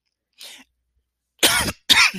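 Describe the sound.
Coughing after breathing in air the wrong way: a faint short catch of breath, then two loud, harsh coughs in quick succession, with no talk.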